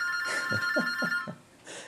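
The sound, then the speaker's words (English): A telephone rings in a radio studio, a bright, steady electronic tone broken by a few quick pulsing bursts. It cuts out briefly, then sounds again. “the phone's ringing off here in the studio”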